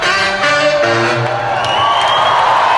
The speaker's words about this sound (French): Là, tu l'entends, le public est content. Non, la salle est pleine.